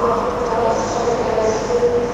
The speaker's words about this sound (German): hole ich uns mal so ein kleines bisschen Frankfurter Bahnhofsstimmung ins Studio